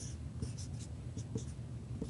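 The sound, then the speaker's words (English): A pen scratches out short, quick strokes while drawing a diagram of linked-list elements, soft and rhythmic with brief pauses between marks, faint and without talk. “I'm drawing them next to each other”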